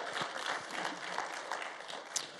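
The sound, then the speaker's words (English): A church audience applauds the youth group as they leave the worship service. Dense, steady clapping runs throughout the moment. “Cheer them on.”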